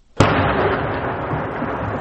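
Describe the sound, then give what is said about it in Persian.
Artillery cannon fire at night near Lashkar Gah in Helmand, supporting Afghan forces against attacks on security posts: one sudden loud blast, then a long rolling rumble that stays heavy and steady. “دا د تیر شپې د هغه ډیسي توپ راغ دی چې د لشکرګاه له زړه څخه د ښار پر شاوخوا او د ندالي ولسوالۍ پر یو شمېر امنیتي پوستو د وسلوالو د سختو بریدونو پر مهال د افغان ځواکونو مرسته کوله”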